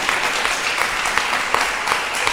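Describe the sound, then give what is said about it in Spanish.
Congregation at a church service clapping hands in praise: dense, continuous applause with no gaps, holding a steady moderate level from start to finish. “A ver, dele palmas al Señor. Déselas con todas sus fuerzas.”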